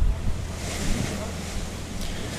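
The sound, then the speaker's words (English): Water and wind noise from a ferry boat out in the middle of the River Liffey: a steady, broad wash of moving water and gusting air with no clear separate events. “it's nice, even in the boat now, it's actually pleasant to be in the middle of the river looking at the view”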